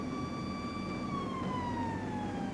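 A police car siren sounds a long, continuous tone that slowly glides lower in pitch, steady in loudness, with no voices over it.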